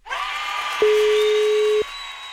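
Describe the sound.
A phone call rings out on the line: one steady, single-pitched ringback tone lasting about a second over a low background hum.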